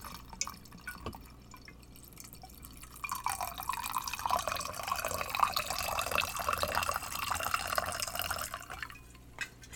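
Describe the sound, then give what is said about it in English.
Rum and cola poured into a glass, a steady fizzing, splashing stream that swells after a quiet start and holds for several seconds before easing off, with no voices. “It seemed like a decent pour. Okay. Just a little bit more Coke so I don't die.”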